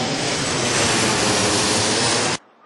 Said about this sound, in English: It's 6:30 in the morning, and I'm at Munich Airport, now going to Cairo.